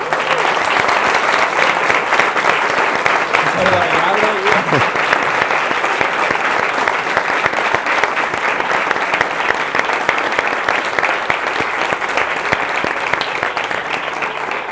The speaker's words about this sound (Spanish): Así que un aplauso para vosotros.